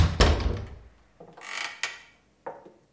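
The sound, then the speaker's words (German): A door of a small hut dug into the earth, used as a workshop and storeroom, is opened carefully: a sharp click, then creaking and scraping, another click, and a final short knock, with no voices. “Ich gehe bis zur Tür, öffne sie vorsichtig und trete ein.”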